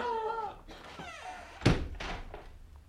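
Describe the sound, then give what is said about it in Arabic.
A door is pushed shut by a palace servant, giving a single heavy thunk that stands out between stretches of talk. “واغلق الباب مرجان”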